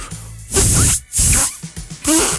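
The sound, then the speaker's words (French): A man tries and fails to whistle very loudly, producing several forceful, breathy bursts of hissing air with only faint, weak squeaky tones, separated by brief breaks. “Weeple, en fait, c'est quand un homme essaie de siffler très fort, mais qui est pas très efficace. OK, un peu comme ça.”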